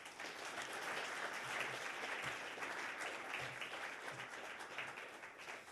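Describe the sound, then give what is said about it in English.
Steady applause from an audience welcoming an author to the stage at a town hall book talk. A dense wash of many hands clapping holds evenly throughout, with no voices. “Please join me in offering a warm town hall welcome to Mark Kurlansky.”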